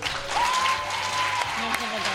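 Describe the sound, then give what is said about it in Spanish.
Applause from a large group of children at a school radio session, a brisk patter of clapping mixed with excited voices and a sustained high cry partway through. “Yo creo que el efecto especial aplauso 150 niños funciona, ¿verdad? Este efecto especial funciona.”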